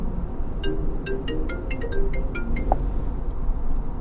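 Electronic phone ringtone of an incoming call inside a car: a quick series of short, bright, high-pitched melodic beeps that repeats several times over a low engine hum.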